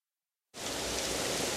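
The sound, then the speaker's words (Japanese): Rain falls, starting abruptly after half a second of silence and continuing as a steady, dense hiss without any voices. “うわぁ、雨だ。傘持ってこなかった。”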